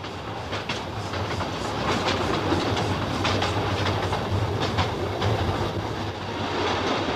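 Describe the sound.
A passenger train runs on rails in 1893 South Africa, a steady loud rumble with a rhythmic clickety-clack of the wheels throughout and no voices.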